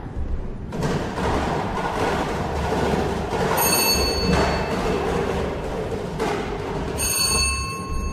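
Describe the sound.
A lottery number drum being spun during a prize draw, giving a steady rolling, rattling rumble throughout, with bright ringing tones breaking in twice.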